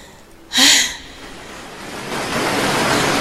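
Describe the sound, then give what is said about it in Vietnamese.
A large ocean wave crashing, a sudden loud splash burst that quickly fades, followed by a broad hiss of surf that slowly swells into a steady roar. “trước một con sóng lớn sắp ập tới”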